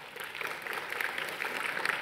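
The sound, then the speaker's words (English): An audience applauds to welcome a guest on stage, with a dense, even patter of clapping that holds steady for about two seconds. “So would you put your hands together to welcome Isabel?”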